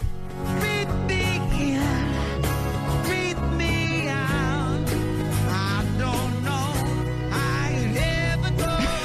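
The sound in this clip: A rock cover of a pop song, led by a male lead vocalist over a full band with drums, bass and guitars. The song plays loud and continuous throughout.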